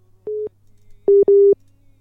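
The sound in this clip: Telephone busy signal on a failed call: three flat mid-pitched beeps over a low steady hum. The first stands alone, and the last two follow close together, the final one slightly longer.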